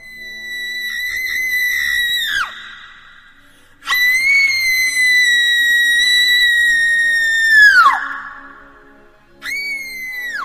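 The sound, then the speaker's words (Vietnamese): A young woman's mournful scream comes as three piercing, very high-pitched wails. Each is held steady and then slides sharply downward, and the last is cut short. “Đột nhiên xuất hiện tiếng hét ai oán đến giận người. Tiếng hét ấy giống như là của một người con gái trẻ, nhưng cũng chẳng rõ là phát ra từ đâu.”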